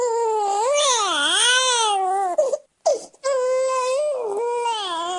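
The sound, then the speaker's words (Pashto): A two-day-old newborn crying outside a private hospital in Douala, Cameroon: loud, sustained wailing with a wavering, rising and falling pitch, broken by a brief gasping pause midway before the crying resumes. “دو ورځانه ماشوم جاړي په داسې حال کې چې مور د کیمرون په اقتصادي پیتخت دواله کې د یو خصوصي روغتون نه بهر څارنه کوي.”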